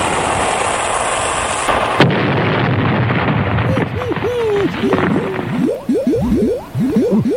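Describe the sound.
Cannon-fire sound effect as a ship is sunk: a sudden loud blast gives way to rumbling noise and a run of bouncy, warbling, sliding tones.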